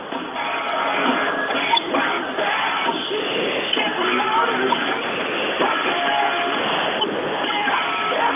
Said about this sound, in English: As you can probably see as I walk closer to the stadium, or as you can hear, rather, a pretty loud show going on here tonight.